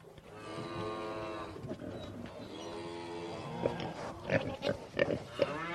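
Cattle mooing on a small farm near Mainz in western Germany: long, low, droning calls with rich harmonics, followed by shorter, choppier lowing near the end.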